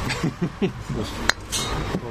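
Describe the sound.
Small glass Schultheiß beer bottles clinking: a few light, bright clinks and ticks, one sharper than the rest, scattered over faint background voices.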